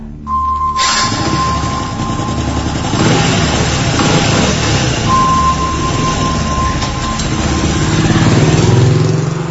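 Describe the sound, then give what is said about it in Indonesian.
A motorbike engine runs as it warms up, a steady, loud rumble that holds for several seconds and swells slightly toward the end as the throttle opens. “memanaskan motor, dan tak lama kemudian langsung menancap gas menuju rumahku.”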